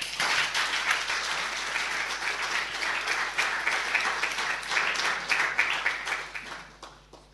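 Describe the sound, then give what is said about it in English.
Audience applause welcomes a speaker at a poetry-in-translation magazine launch in Ledbury on a Pride weekend: dense, steady clapping from many hands holds for about seven seconds before thinning and fading away at the end. “So if you'd like to give a big welcome to Clare Pollard.”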